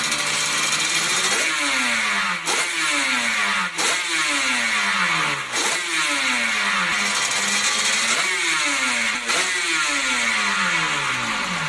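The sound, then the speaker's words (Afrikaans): A two-stroke motorcycle engine revs over and over, with a loud, raspy, buzzing tone. Each throttle blip jumps up sharply in pitch, then slides back down, repeating about six times without a pause. “dit is 'n klank van 'n tweeslag motorfiets”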